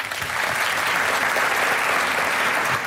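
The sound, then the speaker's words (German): An audience applauds a contest result with dense, even clapping that holds steady from start to finish at a moderate level. “Also nochmal einen großen Applaus für die Band Mahoin hier auf der Böhn.”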